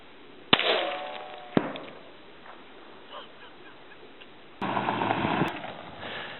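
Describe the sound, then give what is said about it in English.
Long-range rifle fire on a hunting trip: two sharp, loud cracks about a second apart, followed by quieter noise. “He wants to go double or nothing. He's going to try another shot for double or nothing.”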